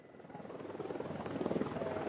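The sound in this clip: A drone flying overhead gives a steady buzzing drone with a fast, rhythmic pulsing flutter that grows slightly louder, and no voices.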